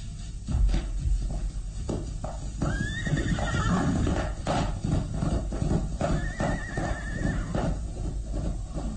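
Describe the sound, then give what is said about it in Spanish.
A horse gallops away with a continuous drumming of hoofbeats, and two high whinnies rise above the steady rhythm. “El campesino se aleja al galope hasta perderse en la bruma.”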